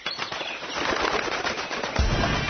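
A bird flaps its wings in a rapid, continuous flutter that stays loud and busy throughout, with a heavier burst of beats near the end and no voices.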